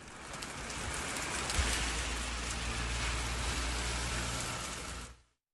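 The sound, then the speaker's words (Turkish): Heavy downpour of rain in Istanbul: a dense, steady hiss of falling water runs unbroken at an even loudness, then drops away abruptly at the end. “Bir kez daha söyleyelim, İstanbul'da sağanak yağış etkili oldu.”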